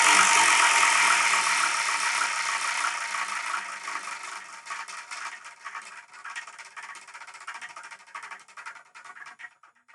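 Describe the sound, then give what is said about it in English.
A wheel of fortune with 10 slots is spun and makes a rapid clicking rattle that starts loud and dense, then gradually slows, thins out and fades as the wheel winds down. “The Wheel of Manga is a wheel of fortune with 10 slots on it. Each slot has a different manga tile connected to it. So what I'm going to do is I'm going to spin the Wheel of Manga.”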